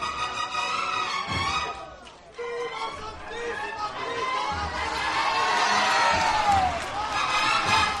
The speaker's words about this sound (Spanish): Escuchamos algunos vivas por parte de los devotos de este Cristo de las Tres Caídas.